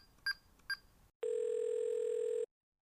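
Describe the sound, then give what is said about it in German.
Telephone call tones: two short, high dialing beeps, then a long steady ringing tone that holds for over a second before cutting off, heard alone without voices. “Herr Bolognese ruft bei Familie Nudel an.”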